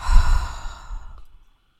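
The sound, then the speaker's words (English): A single breathy exhale during a guided breathing exercise, soft and airy, loudest at the start and gently trailing off into silence after about a second and a half. “Inhale possibility. And exhale limitation.”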